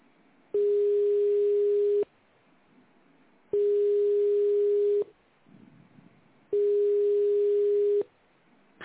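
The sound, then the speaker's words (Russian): A telephone ringback tone plays as a call waits to connect: three long, steady, mid-pitched tones, each about a second and a half, separated by equal pauses over faint background hiss. “Продолжаю вызов. Оставайтесь на линии. Алло, вы тут? Алло. Абонент еще не ответил.”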